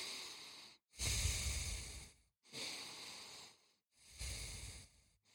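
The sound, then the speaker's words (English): People take slow, deep breaths together: several long, soft, airy rushes of air separated by short silences, fairly faint, with no talking. “Okay, let's all just take a couple deep breaths.”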